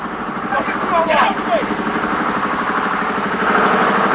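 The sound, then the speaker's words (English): Car engines roar during a road chase involving a police squad car, a loud, steady buzzing drone with a rough, pulsing texture that holds throughout. “One of the cars rejoins the chase.”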